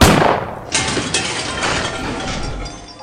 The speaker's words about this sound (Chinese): 一声枪声响起